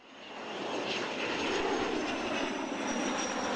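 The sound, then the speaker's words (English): Steady jet engine roar from an X-47B unmanned combat aircraft during trials at a military base in Maryland, swelling over the first half second and then holding a broad, even rush with a faint high whine, no voices. “The X-47B unmanned combat aircraft undergoing trials at a military base in Maryland.”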